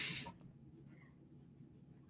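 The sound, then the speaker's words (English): Pen scratching on paper as a note is jotted down by hand: a faint, steady rasp after a brief louder rustle at the start, with no talk. “Hang on, I gotta write this down before I forget.”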